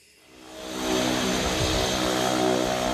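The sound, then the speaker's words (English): A research aircraft's engine at Townsville Airport as the plane prepares for takeoff: a loud droning roar with a steady humming tone that swells over the first second, then holds constant. “At Townsville Airport, a crew of researchers from James Cook University are preparing for takeoff.”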